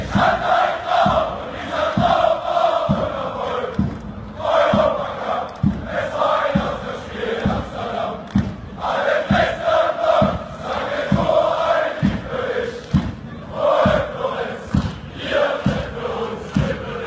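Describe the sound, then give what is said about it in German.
Dynamo Dresden football fans in the stands sing a song together, and the massed voices swell in repeating phrases. Steady, deep thumps keep the beat beneath the singing. “wollen wir einmal ganz kurz hören, um welchen Song es sich handelt, okay, und wie sich das anhört, wenn die Kurve bei Dynamo Dresden das singt.”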